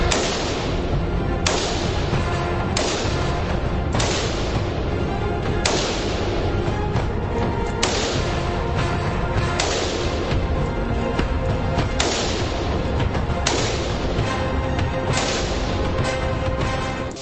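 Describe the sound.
Rifle shots crack one after another at a shooting range, many sharp, evenly spaced reports over a constant loud, dense noise.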